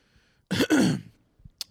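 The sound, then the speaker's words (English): A single short cough, broken into two quick bursts, sounds alone against near silence. A couple of faint small noises follow. “was that a cough? Do you have COVID?”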